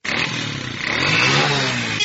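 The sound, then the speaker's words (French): Motorcycle taxi engine on a street in the Kingabwa neighbourhood of Limete, Kinshasa: a loud, steady engine drone that grows louder and revs higher partway through, then holds. “Sur l'avenue Kulumba au quartier Kingabwa Izam dans la commune de Limété, hommes et femmes utilisent le taxi-moto comme moyen de transport.”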